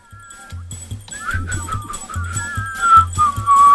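Thin, high whistling tones waver and overlap like a small chorus of whistlers. A steady, low, rhythmic thumping beat runs beneath them, and the sound grows louder toward the end.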